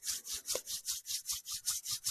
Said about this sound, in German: Auch langsam wieder ein bisschen bewegen, Finger lösen, gerne zusammenreiben die Finger, die Hände.